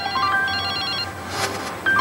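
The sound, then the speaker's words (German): An electronic telephone ringtone signals an incoming call with short melodic tones stepping in pitch. The tones pause briefly, then the ring starts again. “Aber jetzt kommt da dieser Anruf von Wolfgang Niersbach”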